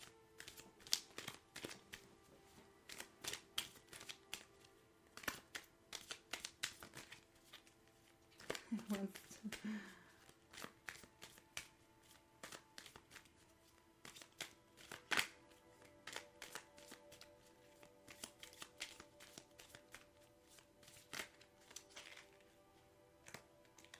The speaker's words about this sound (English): I'm flipping cards all over the place.